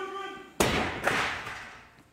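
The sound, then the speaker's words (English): Chairs thrown into a wrestling ring, heard as two heavy crashing thuds close together with the second softer, each ringing out and fading. A voice is heard briefly before the first impact. “Well, look out! Chairs are coming in the ring now.”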